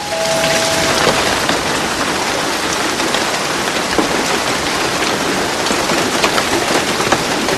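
Pouring rain falls as a loud, dense, steady hiss that never lets up. No voices are heard.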